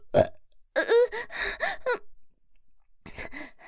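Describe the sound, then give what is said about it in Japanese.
A short burp pops out while someone attempts a Japanese tongue twister. Strained, moan-like vocal sounds with sliding pitch follow it, then a pause and more voiced sounds. “ゲップ出るし”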